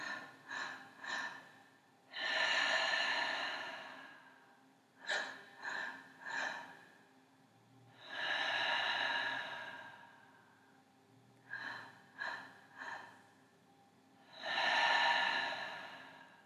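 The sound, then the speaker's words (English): Three deep breaths drawn in during a guided meditation, each a long, airy inhalation of a second or more, separated by clusters of short, quieter sounds and pauses. “And let's take our breaths now, drawing in.”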